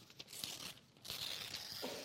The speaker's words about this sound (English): You write down this information that's on this, tear it off,